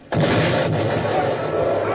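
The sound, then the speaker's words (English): A heavy, cannon-like blast as an enemy round shot strikes a warship's gun port during a naval battle: one sudden loud impact after a brief hush, then a sustained, rumbling roar that carries through to the end. “It happened that a round shot from the enemy entered one of our gun ports.”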